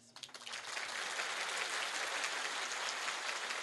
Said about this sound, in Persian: اگه بخوای دست بزنی باید همه بیتشو دست بزنی.